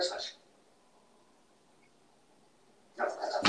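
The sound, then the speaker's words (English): A dog barks in two brief, sharp bursts, one at the start and one at the end, separated by a long quiet stretch. “This damn dog.”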